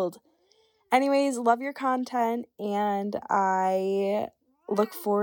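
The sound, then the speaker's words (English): A cat meows faintly in the background while a person speaks over it, the soft mewing mostly buried under the steady flow of voice. “I'm so sorry that you can hear my cat meowing that entire time.”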